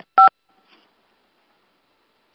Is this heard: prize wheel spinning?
no